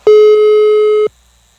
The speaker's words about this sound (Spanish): A lo mejor le entró otra llamada, porque le estoy marcando y no contesta.